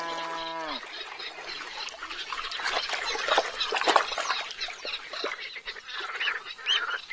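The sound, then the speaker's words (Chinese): Waterfowl calls from a ferruginous duck leading ducklings across a weedy pond: a harmonic honking call opens, then a dense, continuous chatter of many bird calls carries on at a steady level. “一只白眼前鸭正领着小鸭们小心游过水草盘绕的水塘。”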